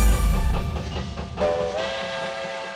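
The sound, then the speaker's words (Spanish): A train runs on rails with a steady, heavy rumble and rattle throughout, and a brief tonal whistle sounds partway through before the rolling noise carries on. “El tren sigue su marcha.”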